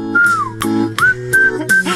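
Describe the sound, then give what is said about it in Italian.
Whistled solo in a song: bright, high whistled notes, the first gliding downward and later ones held briefly, set over the song's backing with low bass tones underneath. “La solo di fischietto.”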